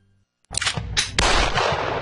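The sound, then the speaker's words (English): A few sharp gunshots ring out in quick succession at a Louisville shooting range, each loud crack trailing into a ringing decay. “Whether you're dropping in to shoot or ready to become a member, this is shooting taken to the next level.”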